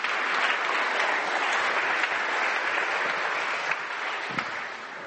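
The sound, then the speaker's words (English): Sustained audience applause at a church service as a member is welcomed to the front. Dense, steady clapping forms a continuous wash for the whole stretch and eases slightly toward the end. “And I just want to encourage you to put a hands together for Delia and welcome her.”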